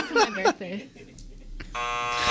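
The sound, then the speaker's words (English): A harsh electronic buzzer cuts in after brief talk, a steady, rasping tone that holds to the end and grows slightly louder. “You get the buzzer on that.”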